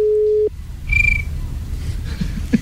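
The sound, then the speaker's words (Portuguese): A telephone ringback tone during a live prank call, waiting for someone to answer: a steady low tone for about half a second, then a short higher beep over a faint background hum. “A gente tá tentando ligar pra ele aqui ao vivo durante o programa.”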